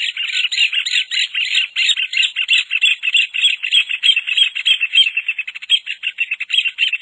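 Rufous hornero (João-de-barro, Furnarius) singing: a loud, shrill, rapid run of many repeated chirping notes that carries on unbroken from start to finish, with no voices.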